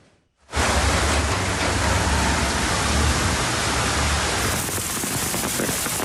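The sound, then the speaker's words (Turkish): Heavy rain and hail pound down in a downpour around Ankara. After a short quiet moment a dense, loud hiss starts abruptly and continues unbroken to the end. “Ankara'nın çevre ilçelerinde dolu, şehir merkezinde ise sağanak etkili oldu.”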